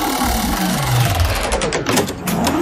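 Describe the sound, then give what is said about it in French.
A spinning game wheel sound effect on a French radio quiz gives a continuous mechanical whir with a low sliding tone, breaking into rapid ticking clicks in its second half. “J'envoie la roulette des jeux”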